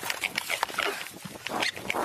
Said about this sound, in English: Got a pig chase. Squeal. Get him. Get him. Squeal.